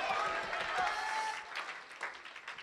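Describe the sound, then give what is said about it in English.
Faint clapping from a church audience during a sermon. Voices rise first, then scattered claps follow and gradually thin out. “Oh, clap your hands unto the Lord. Someone shout glory to God.”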